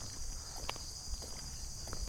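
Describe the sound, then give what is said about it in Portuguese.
Footsteps walking up a ramp outdoors at night near a border, a few soft, scattered steps over a constant high chirping of insects. “Agora vamos subir na rampa de novo. Então aqui, vamos caminhando”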